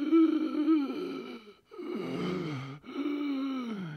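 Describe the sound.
A voice imitates the strained, gasping breath of someone who cannot breathe because the rib cage presses down on the lungs. It makes three long, drawn-out, groaning breaths separated by brief pauses.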